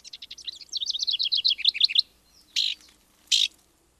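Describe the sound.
A downy woodpecker calls with a rapid run of high, sharp chirping notes lasting about two seconds, then two separate short, bright call notes follow after brief pauses.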